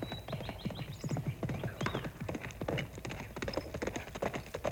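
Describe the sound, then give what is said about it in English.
Hoofbeats of a horse galloping on a dirt road in a Western-style video game: a fast, steady run of many clopping strikes at an even loudness, with no voices. “it looks like a cowboy galloping toward me”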